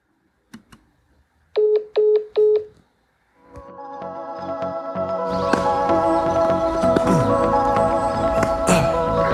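A telephone number being dialed: a few faint clicks, then three even tone beeps in quick succession. After a brief pause, a loud, dense, sustained sound swells in and continues.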